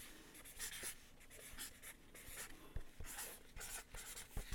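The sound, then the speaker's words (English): A pen scratches across paper as someone writes words by hand. The strokes are quick, irregular and faint, with a few sharper taps between them. “You're writing a lot more than four letters.”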